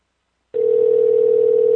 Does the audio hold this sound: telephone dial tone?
yes